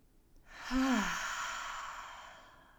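A single deep, slow breath during a guided breathing exercise, drawn in through the nose and let out through the mouth, with a brief soft voiced sigh near its start, then a long airy exhale fading gradually.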